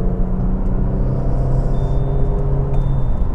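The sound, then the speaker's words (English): Freeway traffic heard from inside a moving car: a loud, continuous low road rumble and engine drone with steady humming tones, unbroken throughout and with no talking. “Oh my goodness, look at all this traffic. I gotta get going here. I'm on the freeway”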